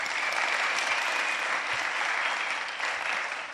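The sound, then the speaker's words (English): An audience applauds to welcome a speaker: dense, continuous clapping that holds steady throughout and eases slightly at the end. “Can we give Brendan a round?”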